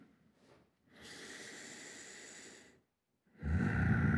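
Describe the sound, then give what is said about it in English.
Close breathing right into the microphone: a faint breath, then a long steady hissing exhale, a short silence, and a louder breath with a low rumbling blast against the mic. “You can feel my presence. Feel my breath.”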